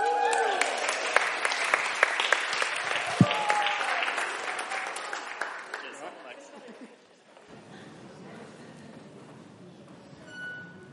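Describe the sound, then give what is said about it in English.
Audience applause welcomes a speaker onto the stage at a TED-style talk event. Dense, loud clapping holds steady for about six seconds, then thins out and fades to quieter room noise, with a brief small swell near the end. “Would you give a Bullington welcome to Mr. Paul Bolton, everybody?”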